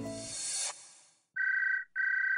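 A phone rings for an incoming call. After a brief noisy passage come two long, bright electronic tone bursts with a fast warble, steady and loud, with a short gap between them.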